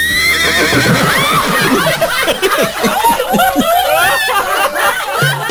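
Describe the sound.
A person's voice imitates a mare neighing: a loud, quavering whinny with shaky, wavering pitch that carries on without a break, delivered alone without other talk.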